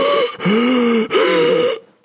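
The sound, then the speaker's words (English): A voice imitates labored, wheezing breathing: three strained, voiced breaths with a hoarse, whistling tone. Each breath rises and falls in even succession, and the last trails off into quiet. “By June 2013, I'm breathing like this.”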